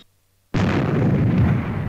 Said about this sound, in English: And there she blows! Ooh, there we go. One less freighter in the universe. Oh, lots of debris, though.